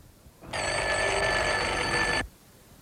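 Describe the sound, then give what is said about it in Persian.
A doorbell, pressed by hand, gives one steady, bright, ringing buzz lasting just under two seconds. It starts and stops abruptly against a faint background hiss. “با دستان لرزان تگمه زنگ را زیر کرد.”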